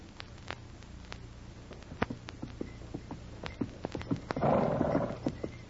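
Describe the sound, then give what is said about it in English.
Hooves of a horse ridden along a trail, many uneven clopping steps at a moderate pace. “Sergeant Preston of the Northwest Mounted Police, riding the trail toward Dawson on horseback”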